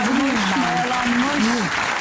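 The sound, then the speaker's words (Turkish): Studio audience applause on a cooking show, a steady, full round of clapping that continues for the whole moment while a voice talks over it. “Koskoca bir alkış şu an.”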